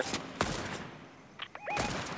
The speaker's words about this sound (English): Another one shooting me from where we were.